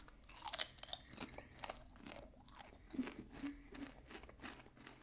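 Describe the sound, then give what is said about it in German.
Plain potato chips being eaten: many sharp, crisp crunches in an uneven rhythm of bites and chewing, faint and close, with no talking. “Also, als erstes die normalen Chips. Die habe ich noch nie gegessen. Also, erstmal essen.”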